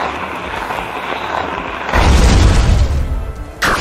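A deep booming blast sounds as the effect of Mortrex's ghost-type Psycho Trick attack in a monster-battle video game. It rumbles loudly after a quieter stretch, and a brief sharper burst comes at the end.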